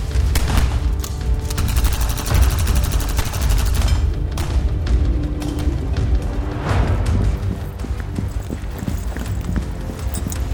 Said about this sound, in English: Covering fire. Spread out! Move.